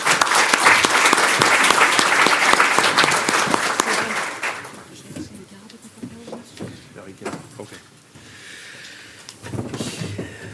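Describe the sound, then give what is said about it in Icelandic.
Audience applause follows the introduction of a panel at a discussion event. Dense, loud clapping lasts about four seconds, then thins to scattered claps and a voice, with a brief swell near the end. “Gefum þeim gott klapp.”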